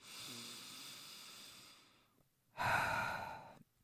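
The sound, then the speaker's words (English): Slow, deep breathing during a guided heart-breathing exercise: two long, airy breaths, the second louder and fuller than the first. “let's try a few breaths around the heart. One more heart breath.”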